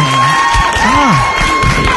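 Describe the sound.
A live studio audience cheers and applauds, with whoops and shouting voices rising above a dense, steady wash of clapping throughout.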